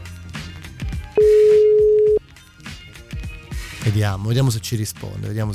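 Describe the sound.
A telephone call ringing out unanswered: a single steady electronic ring tone lasting about a second, with people talking before and after it.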